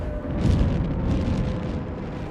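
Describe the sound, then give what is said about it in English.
Explosive and incendiary bombs land on a city during a night of bombing, heard as a loud, continuous low rumbling roar with no clear gaps between blasts. “Every night, hundreds of explosive and incendiary bombs land on the city.”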